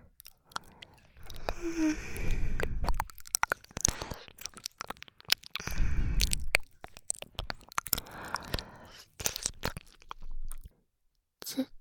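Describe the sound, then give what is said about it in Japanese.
Wet ASMR ear licking: close, soft smacks, slurps and little clicks of tongue and lips, coming in irregular clusters with short quiet gaps between them. “こちらのお耳も美味しいので、舐めていて、私も心地いいです。”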